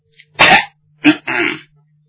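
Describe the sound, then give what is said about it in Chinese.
A person coughs and clears their throat: a few short, rough bursts with brief pauses between, loud and alone against a quiet background. “蔡婷把腰板一挺，咳嗽两声，清清嗓音儿”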